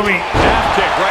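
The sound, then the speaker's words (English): A wrestler slams an opponent down in a wrestling video game, a heavy, booming thud under excited commentary. “Dracula with Malachi just slamming him down.”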